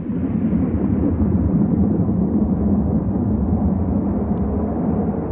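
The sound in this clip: Deep, steady roar of a space probe lifting off, a dense low rumble without sharp peaks that stays loud and even for the whole span.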